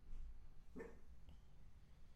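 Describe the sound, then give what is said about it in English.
A single short dog bark, faint, over a low steady background rumble. “here he go barking”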